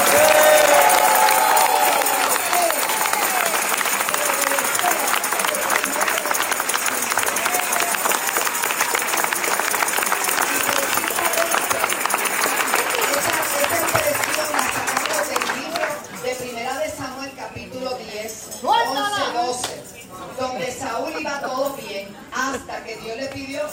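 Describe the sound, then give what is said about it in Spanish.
A crowd at a religious march applauds and cheers in a dense, steady roar of clapping for about fifteen seconds. It then thins out as voices come through. “que le den un fuerte aplauso a este pueblo”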